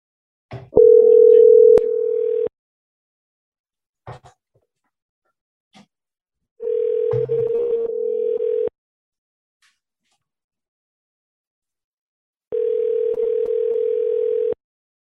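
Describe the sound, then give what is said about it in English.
Telephone dial tone while placing a call comes in three steady stretches of about two seconds each, separated by silences, with a few faint clicks in between. “Going to make a call.”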